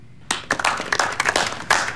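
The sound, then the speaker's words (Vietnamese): Scattered clapping follows a presentation on a smart city strategy, with irregular, separate hand claps starting after a brief quiet moment and continuing unevenly from what sounds like a modest group. “Mọi người vỗ tay lớn lên đi nào. Nếu làm tốt thì phải khen ngợi họ mới đúng chứ.”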